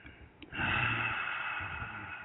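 A single deep breath drawn in through the nose, faint and airy. It begins after a short quiet pause and continues as a steady rushing hiss for about two seconds.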